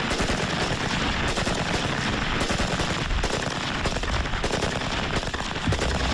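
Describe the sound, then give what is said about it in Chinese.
Rapid automatic gunfire comes from a brand-new Type 56 submachine gun fired on full automatic during weapons testing. A loud, dense, continuous stream of shots runs throughout with no clear breaks. “火力输出方面，全自动的56式冲锋枪优势显而易见”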